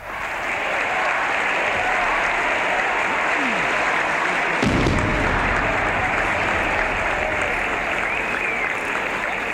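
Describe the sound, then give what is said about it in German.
Dense applause and cheering from a large crowd welcoming a Soviet cosmonaut as an honorary citizen in Leipzig in 1961. It is a continuous, even roar that runs unbroken through the whole clip. “das ist der Jubel, der 1961 den sowjetischen Kosmonauten German Titow als Ehrenbürger Leipzigs empfing.”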